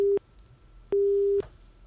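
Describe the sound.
Telephone busy tone after a caller cuts off a phone-in call: two steady, mid-pitched beeps separated by a short silence, the second one longer, with no voices.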